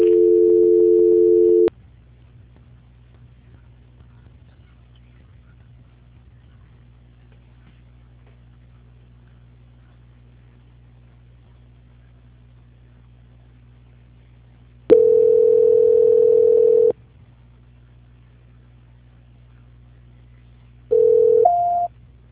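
Telephone tones during a call transfer: a steady tone, then a long stretch of near silence over a low hum, another steady tone, and finally a short tone that steps up to a higher pitch.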